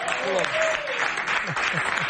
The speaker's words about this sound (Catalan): Home, un aplaudiment! Bravo. Molt bé!